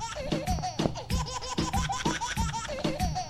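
A baby funk song plays on the radio, with repeated bursts of baby laughter and giggles riding over a steady, punchy rhythmic beat throughout.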